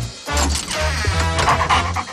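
A dog gives a short, loud bark and a few yips, followed by a whimpering whine, all crammed into about two seconds with no talking.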